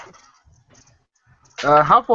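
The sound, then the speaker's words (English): A human voice imitating owl hoots gives a couple of short, voiced hoots after a near-silent moment. “I give two hoots like a hoot owl, and one like a barn owl.”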